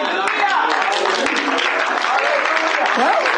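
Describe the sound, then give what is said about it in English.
Church audience applauding and clapping hands in a dense, steady wash of claps, with voices calling out over the clapping throughout. “How come you ain't clapping your hands, see? Amen. How come you're not applauding right now?”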